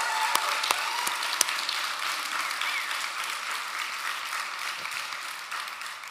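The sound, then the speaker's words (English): A church audience applauds during a worship service, a steady, fairly loud wash of clapping that holds throughout, with a few sharp individual claps standing out near the start. “I got to believe there's some stuff that happened even this week that he deserves a shout of praise. Can we do that? Can we do that? Let's praise him.”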